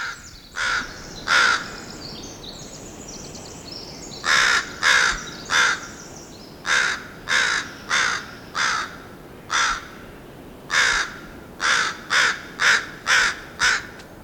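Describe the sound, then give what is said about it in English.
Adult Northwestern crows give many harsh, loud caws in short repeated runs separated by brief pauses, clear against a quiet background. “there's a couple adult Northwestern crows. One of them was seen feeding a young bird”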